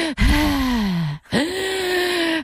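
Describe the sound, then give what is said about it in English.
A voice imitates the heavy panting breath of a man working up in a roof space. Two long, loud, voiced breaths stand alone with a short gap between them, and the first sags in pitch as it goes on. “he's panting and he's breathing heavily”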